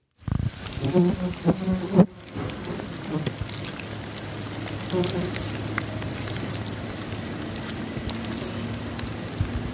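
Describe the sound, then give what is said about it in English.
A fly buzzes steadily over soft, dense crackling and rustling from worms in a worm farm kept in a garage, with a few sharper ticks near the start. “I have a worm farm in my garage. That's worms in his worm farm.”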